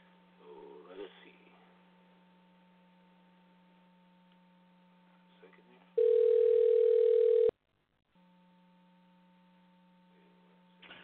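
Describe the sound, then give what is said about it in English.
Telephone dial tone as a call is placed: a loud, steady, unbroken tone lasting about one and a half seconds, then cut off abruptly. A constant low mains hum runs beneath the whole stretch. “I'm going to dial up our friend here, Wilmer Leon”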